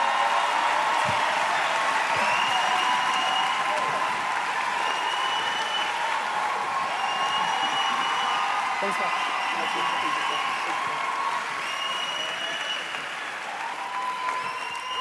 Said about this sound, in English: Can you put your hands together?